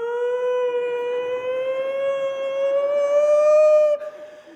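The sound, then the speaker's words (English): A voice imitating a British police car siren holds one sustained, wailing tone that creeps slightly upward in pitch for about four seconds, then cuts off abruptly. “It just kind of sounds like an English, you know, like a police car in England.”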